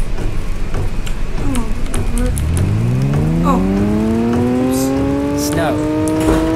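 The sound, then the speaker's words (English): A rally car engine roars as the car drives on snow in a video game. After a steady rushing noise, the engine note climbs smoothly and strongly, revving higher as the car accelerates. “Snow. And I'm driving on snow, great. Snow, you're turning is super sensitive.”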